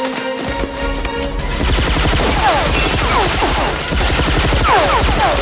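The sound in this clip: Loud, dense gunfire during a breach: rapid automatic bursts run together in a continuous, harsh clatter that barely lets up.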